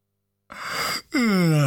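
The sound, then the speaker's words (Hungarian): A single yawn starts with a breathy intake of air and then turns into a voiced, groan-like exhale that slides down in pitch. It is loud and clear, with no other sound around it. “Ásított Zödön.”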